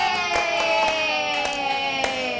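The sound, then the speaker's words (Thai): An audience claps for a contestant on a stage show, a few sharp, scattered hand claps at uneven intervals over a steady tonal music bed. “ขอจะปรบมือให้โบนัสหน่อยค่ะ”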